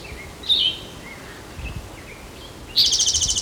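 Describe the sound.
A woodpecker calls with a short, sharp high chirp and a few faint high notes, then a rapid rattling series of high calls at the end, over a quiet background with no talk.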